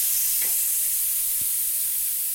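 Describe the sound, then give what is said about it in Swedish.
Frozen corn sizzling as it is tipped into browning butter in a hot pan, a continuous loud, bright hiss of frying that holds steady throughout with no talk. “Men det kommer bryna, det bryns på en gång, smöret. Men så fort jag går ner med det här kommer det ju kylas ner. Så jag går ner med all fryst majs.”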